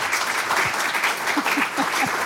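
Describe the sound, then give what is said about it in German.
Steady applause from an audience welcoming the artistic director of the Deutsche Kinemathek, many hands clapping in a dense, continuous patter throughout. “Ich sage dazu ganz, ganz herzlich willkommen und stimmen Sie ein, indem Sie ihm einen kleinen Applaus schenken.”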